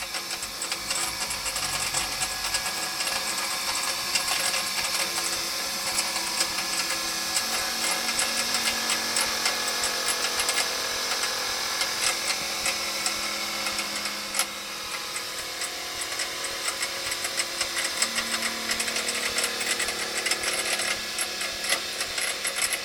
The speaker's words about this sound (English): Right, let me turn the bench grinder off.